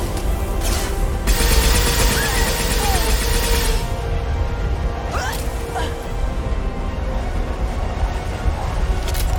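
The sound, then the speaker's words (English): Video game gunfire using disruptor ammo: a few sharp bursts of shots break through a thick, noisy combat soundscape, with thin whistling tones sliding past between them. “Use normal guns. And then use disruptor ammo, please. Firing now.”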